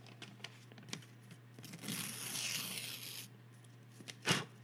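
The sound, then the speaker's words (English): Paper tearing as an envelope for the winner is ripped open at an awards show: a few faint ticks, then a sustained crinkly rip lasting over a second, and a short sharper rustle near the end, all quiet. “So let's open the envelope for the winner.”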